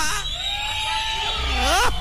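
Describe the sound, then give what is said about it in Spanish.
An audience at a live show cries out, with women shouting and men whistling in a sustained high call. Near the end its pitch rises and then drops, over a background of crowd noise. “es un placer a ver el grito de las comadres. El chiflido de mis machos alfa.”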